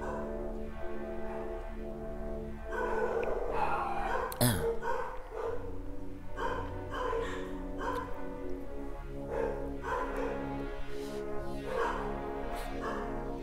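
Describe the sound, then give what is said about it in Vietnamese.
A neighbor's dog barks repeatedly in irregular bursts of barks and yips, with some whimpering, across roughly thirteen seconds. The barking is fairly faint over a steady background hum. “Bạn đợi một tí chó nó sủa xong rồi nhá.”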